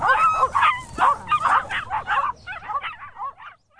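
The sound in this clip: Puppies yip and bark in many rapid, high-pitched bursts mixed with whimpering. The yelps come in a quick, uneven string and grow thinner and fainter toward the end.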